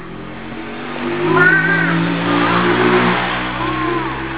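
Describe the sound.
A voice imitates a motorbike engine revving, humming a rising and falling "vroom" over a low background drone, with one strong swell early and a softer second one near the end.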